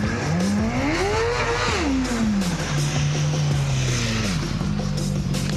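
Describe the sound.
A motorcycle engine revs as the throttle opens. The loud, continuous drone climbs in pitch, then drops back and settles into a steadier hum.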